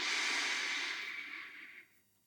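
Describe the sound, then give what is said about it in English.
A deep, full inhale taken during a guided breathing exercise: a steady, airy rush of breath lasting nearly two seconds, strongest at the start and thinning before it drops away to near silence. “And now, another deep, full breath in.”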